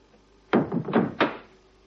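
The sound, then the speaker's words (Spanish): A gate and a door are shut in quick succession, making a few dull wooden thuds and knocks within about a second. The thuds are moderately loud, and no voices are heard. “Cierra la verja y la puerta.”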